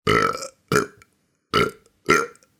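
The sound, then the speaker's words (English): Four deep, throaty burps from a dragon, voiced by a person, each a short loud rasp separated by silent gaps, with the last two coming closer together. “The king hoped that the dragon would leave after he finished, but the next day he simply burped”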